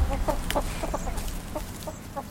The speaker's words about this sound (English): Come on, let's go look at the gas station chickens. Gas station chickens.